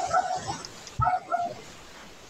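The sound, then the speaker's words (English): Dogs bark in a few short, yipping bursts separated by brief pauses. The barks are moderately loud and fairly high-pitched. “And my dogs are back barking in the background.”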